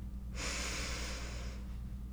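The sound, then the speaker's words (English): A deep breath drawn in: one smooth, airy inhale lasting just over a second, soft and steady over a low background hum. “Let's take a big deep breath in. Ready? If you're driving, keep your eyes open, obviously, but just take a big deep breath in.”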